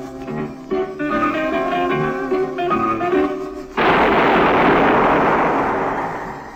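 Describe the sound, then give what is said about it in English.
A single gunshot in a sewer cracks in abruptly after zither music and leaves a loud, broad rumble that slowly fades over the next few seconds. “That was the shot that killed Harry Lyon.”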